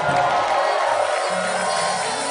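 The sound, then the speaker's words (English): Loud shouting and cheering from a church audience giving a shout of praise at a Sunday service, a dense, continuous roar of voices and whoops lasting about two seconds. “Are you expectant this morning? Come on, give God a shout of praise.”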